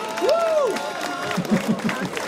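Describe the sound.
Crowd applause on a town main square in Übelbach during a live outdoor radio show, moderately loud clapping with voices mixed in and a brief vocal cry rising above it early on.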